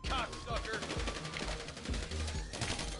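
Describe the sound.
Gunfire rattles in the online video game Grand Theft Auto during a casino heist mission. Dense rapid bursts of sharp shots fill the moment with little pause, and a voice is briefly heard under the shooting.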